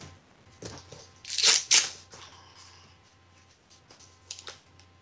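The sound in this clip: Rustling and crinkling as a collapsible Heads Up Decoys hunting decoy is folded down, its flexible internal wire frame collapsing like a tent. Two louder snapping rustles come near the middle amid softer handling noises.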